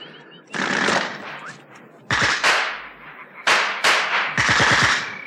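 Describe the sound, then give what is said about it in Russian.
Bursts of automatic gunfire at the edge of a marsh: several loud, sharp volleys of rapid shots separated by short gaps, each a fast hard rattle, with no voices. “Что произошло? Ни у Алехина, ни у Таманцева не было с собой автоматов. Кто стрелял?”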